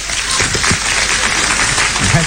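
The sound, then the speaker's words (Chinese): An audience applauds on a performer's cue, a loud, dense wash of clapping that keeps an even level, and a voice comes through near the end. “鼓掌。”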